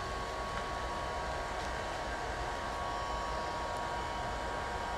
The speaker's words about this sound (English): That was my heater. I had to turn that off.